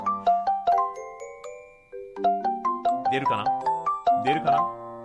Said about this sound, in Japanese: ちょっと連絡。は、音声通話、アリスさんに。ちょっと鼓膜注意でございますが。